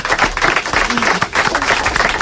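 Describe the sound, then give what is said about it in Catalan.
Applause from a group, brisk and even clapping lasting about two seconds at a fairly loud level. “Un aplaudiment. Bravo.”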